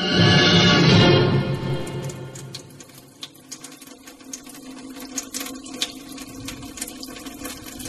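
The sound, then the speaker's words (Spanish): Water gushes from a tap left wide open, a loud dense rush that lasts about two seconds before it fades into quieter scattered sounds. “doña Micaela abría la canilla y la dejaba abierta.”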